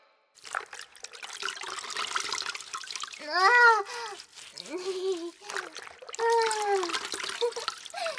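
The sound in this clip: Water trickles and splashes while someone is washed in a bath, including having their back rinsed. Short voiced sounds break in over the running water.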